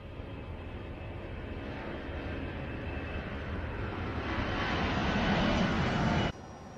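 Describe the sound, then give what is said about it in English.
An airplane takes off from a runway, its engine roar building steadily in loudness for about six seconds before cutting off abruptly to a lower, quieter hum. “You're clear for takeoff. Runway 13.”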